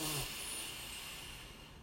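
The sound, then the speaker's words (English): A single deep, airy breath is drawn in during a guided breathing exercise meant to clear stale air from the lungs. It is faint and soft, strongest at the start and then gradually fading. “And we do this to get any stale air out of our lungs. So let's breathe in and out. Breathe in”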